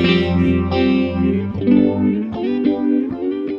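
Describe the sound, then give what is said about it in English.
Electric guitar played through a Keeley Echoes pedal set to slapback echo, ringing out a few loud, sustained notes and chords, each followed by a short repeat, with no talking. “And then last is the Keeley Echoes. Yeah, I know you guys, some of you guys have noticed there's been a slapback the entire time.”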